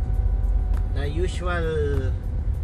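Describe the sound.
Car driving, a steady low engine rumble running underneath a person talking throughout.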